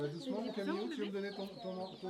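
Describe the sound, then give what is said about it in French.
Chickens and chicks in a farm-animal area at a village fair, with many overlapping throaty clucks mixed with higher cheeping calls that go on without a break. “les enfants vont voir les poussins”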